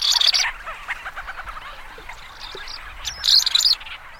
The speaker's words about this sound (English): there's one bird, as far as we know, only one, that migrates east to west and back across the North Pacific. It's the ancient murrelet.